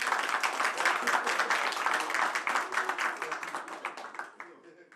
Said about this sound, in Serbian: Još jedan veliki aplauz, molim vas.